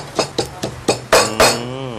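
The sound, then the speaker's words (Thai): Garlic, chili and shallot pounded coarsely in a mortar: six sharp, knocking strikes in a quick, even rhythm, the last two louder and followed by a brief ringing tail. “ตำกระเทียมพริกหัวหอมตำไม่ต้องให้แหลกอะค่ะ”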